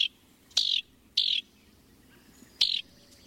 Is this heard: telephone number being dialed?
no